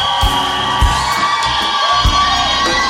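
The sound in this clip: A church audience cheers to welcome a woman who is about to share a testimony. The cheering is loud and continuous, with whoops and high shouts rising over the crowd.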